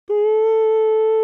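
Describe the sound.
A human voice sings a single sustained note at the A440 tuning pitch. The tone is steady and rich in overtones, stays on one pitch for just over a second, and sounds alone with no accompaniment.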